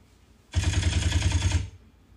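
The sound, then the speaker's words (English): A voice imitates an assault rifle firing: a loud, fast, evenly pulsed burst of rattling shots lasting about a second, heard alone between short silences. “Assault rifle. Mind blown. Do assault rifle.”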